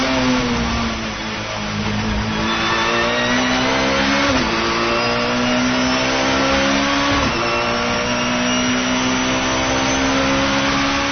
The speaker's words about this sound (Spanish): Vaya, pues sí que tiene realismo este juego. Vamos a escuchar a ver cómo suena el BMW.